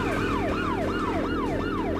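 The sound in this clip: A police car siren in a video game wails in quick repeating sweeps, each gliding up and then sliding down in pitch, about five cycles over a steady low engine drone.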